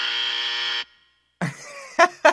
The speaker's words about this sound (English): You're going to hear a buzzer that sounds like this.